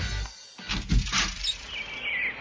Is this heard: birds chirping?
yes

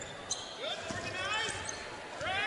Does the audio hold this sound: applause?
no

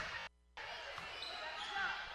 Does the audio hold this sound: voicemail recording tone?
no

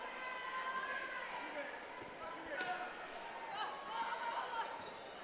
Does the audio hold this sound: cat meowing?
no

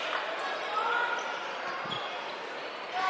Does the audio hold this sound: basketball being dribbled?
yes

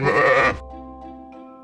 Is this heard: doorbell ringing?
no

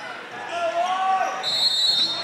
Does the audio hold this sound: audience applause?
no

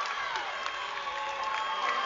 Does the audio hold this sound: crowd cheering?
yes

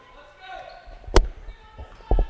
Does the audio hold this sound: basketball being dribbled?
yes

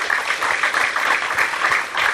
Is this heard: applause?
yes

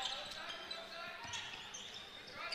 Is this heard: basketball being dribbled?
yes

